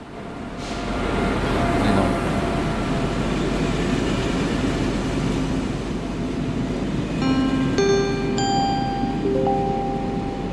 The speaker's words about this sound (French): Voilà, on est dans le train.